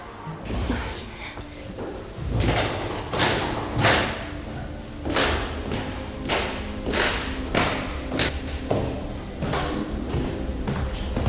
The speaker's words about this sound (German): Hört ihr? Da unten kommt jemand ins Haus.